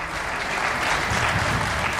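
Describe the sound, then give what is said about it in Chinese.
Audience applause, scattered and reluctant, after Chiang Kai-shek announces a presidential and vice-presidential election: an unbroken patter of clapping with no voices, holding at a fairly even level throughout. “过了一会儿，不知是谁带了头，才稀稀拉拉地响起了几声掌声。”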